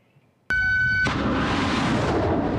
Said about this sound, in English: That single rocket launch cost nearly $29 million. The SM-3 is the US military's most expensive weapon. It's an interceptor.